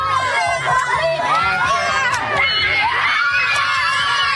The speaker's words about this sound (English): Selkirk students giving Premier Wab Kanu a warm welcome Tuesday morning